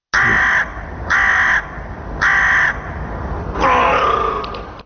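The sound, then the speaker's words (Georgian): Crows caw in Tbilisi's streets: three loud, harsh, evenly spaced caws, then a longer, rougher call, with no talk. “ყვავიდა ყორანი, ლათინურად კორვუს.”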